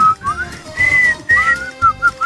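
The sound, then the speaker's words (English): A person whistles a run of short, clear, high notes, some sliding up or down, with brief gaps between phrases and no talk over them. “You know, I can't really whistle that much. Good. I'm not a good whistler either.”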